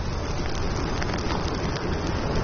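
A controlled training burn gives off a loud, continuous roaring hiss with a dense crackling texture. The sound stays steady throughout, with no voices.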